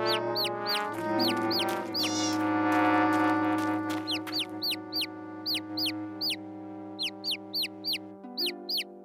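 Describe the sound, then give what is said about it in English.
Baby chicks peep, one of them with an injured foot, in many rapid high-pitched chirps that come in clusters over steady low sustained tones. “something's wrong with the baby chicks.”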